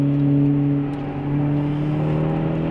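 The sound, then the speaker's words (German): A car engine pulling hard through a curve on a race track, a loud, steady droning tone with strong harmonics held throughout, with no talk over it. “hier die Kurve einfach Gas geben”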